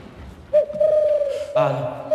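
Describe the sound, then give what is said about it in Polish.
A person imitates a pigeon's cooing with a long, steady hooting tone that turns fuller and buzzier partway through, heard alone without other talk. “Dobrze, masz rację, to gołąb.”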